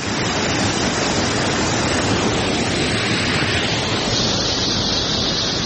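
Cold, clear water of the Mazar Baba spring in Uruzgan, set among green gardens, flows in a loud, constant rushing wash that stays even from start to finish.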